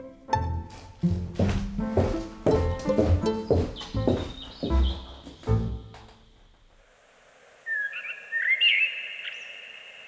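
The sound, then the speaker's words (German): Blackbirds sing on a green-lit April evening in spring, giving a few brief, bright fluted whistles near the end after a louder earlier stretch of other sound. “Es war Frühling geworden. Im grünlichen Licht eines Aprilabends flöteten Amseln das alte Triumphlied des Lebens.”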